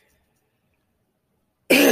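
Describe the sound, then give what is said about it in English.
A single abrupt throat clearing from someone with a dry throat caused by medication, loud and rasping, bursting out after near silence. “Excuse me, I'm sorry. This dry throat has been driving me nuts since I've been on this medication.”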